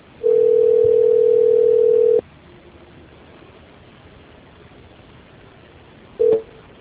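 A steady, mid-pitched telephone tone sounds as a call connects. It holds for about two seconds, then gives way to faint hiss before a second brief beep of the same pitch.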